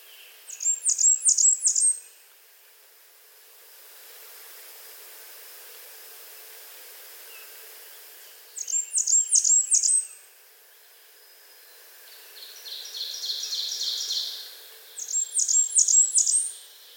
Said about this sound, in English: White-breasted nuthatch.